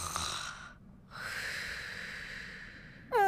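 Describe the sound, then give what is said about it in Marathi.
Snoring from someone asleep: faint, breathy rasps drawn out over two long breaths, the second longer than the first, with a brief, higher tonal sound at the very end. “काही क्षणातच मूला गणेशांचं घोरणं ऐकू येतं.”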